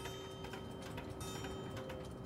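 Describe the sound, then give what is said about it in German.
Many wristwatches and pocket watches tick together, mounted on a long black cardboard tube. Faint, dense clicking runs without a shared beat over a low, steady hum. “dieses lange schwarze Papprohr, auf das die ganzen Armbanduhren und Taschenuhren montiert sind oder drapiert sind”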